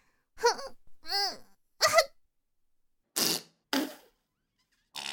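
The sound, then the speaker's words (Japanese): Several short farts from gas released by pressing on the belly, the first ones squeaky and pitched, the later ones breathy and noisy, separated by silent gaps. “まだまだガスが溜まってるから、お腹を押したら出ちゃうの。 ふっ。出るよ。出る。 またおなら出ちゃう。”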